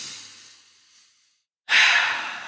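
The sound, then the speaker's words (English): A single deep breath, a sudden loud airy rush that slowly tapers off, following a fainter breath that fades into near silence. “again, take the deep breath”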